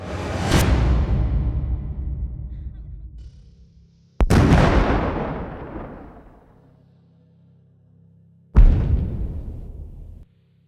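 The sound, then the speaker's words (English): Flashbang grenades go off in a violent armed assault: three sharp, loud bangs, each followed by a long fading decay, spaced roughly four seconds apart. “The pop of flashbangs blinded the men and shocked their senses momentarily.”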